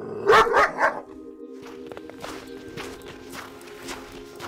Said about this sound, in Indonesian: Lepaskan anjing itu. Biarkan dia menunjukkan tempat ditemukannya talas tadi.